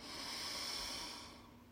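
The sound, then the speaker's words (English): A breath drawn in through the nose during a guided relaxation exercise. It is a faint, airy hiss that swells and then fades over less than two seconds, with no voices. “breathe in through our nose. And exhale.”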